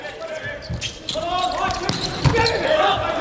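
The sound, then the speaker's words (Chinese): A volleyball serve by Iran's number seven outside hitter during a match, heard as a sharp ball strike amid a constant roar of crowd noise, with voices talking over it. “伊朗队七号主攻伊斯梅尔发球，”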